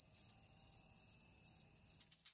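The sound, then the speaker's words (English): Cricket chirping in rapid, evenly spaced bursts, about five trills in a steady rhythm, a high thin pulsing tone, moderately loud and alone with no voices. “What do you think that noise is? It's a cricket.”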